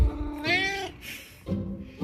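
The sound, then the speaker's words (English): A hungry cat meowing for its dinner: a few short, insistent meows, the first clear and tonal, followed by quieter, rougher calls. “if he meows at me persistently, he usually gets it a bit sooner”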